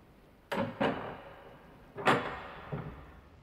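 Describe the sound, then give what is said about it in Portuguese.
A door handle turns and a door opens into a dining room. Four dry knocks and rattles sound alone in two pairs, with a quiet gap between the pairs. “A maçaneta gira e ele entra.”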